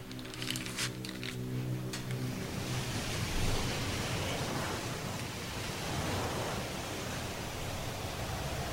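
Sea waves wash in at the opening of a chanson, a steady, broad surf hiss that fills the whole clip at an even level, with a soft sustained tone in the first two seconds.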